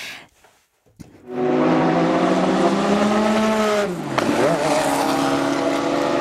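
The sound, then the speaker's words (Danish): Race car engines roar at the Le Mans 24-hour endurance race. A loud, sustained engine drone starts after a brief quiet moment and a click, then its pitch dips sharply before the roar returns strongly. “Den her lyd blandet med duften af brændt gummi og benzin i sommervarmen, så taler vi altså Le Mans.”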